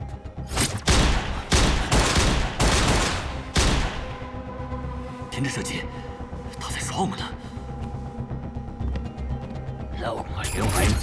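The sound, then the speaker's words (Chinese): Gunfire in a police shootout near a lift: rapid, loud bursts of shooting fill the first few seconds, then give way to quieter mechanical clicking and clatter. “停止射击，他在耍我们呢。”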